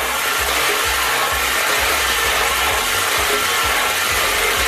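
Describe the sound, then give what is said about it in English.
Lottery balls spinning in a draw machine make a loud, steady rushing whir with constant rattling clatter and a regular low thumping rhythm throughout. “Let's put those balls in and give them a spin, hey?”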